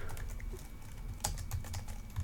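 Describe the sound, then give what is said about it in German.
Typing on a computer keyboard: quiet, rapid, irregular clicks with an occasional slightly sharper keystroke, continuing steadily with no one talking. “ihr hört die Tastaturtippen im Hintergrund”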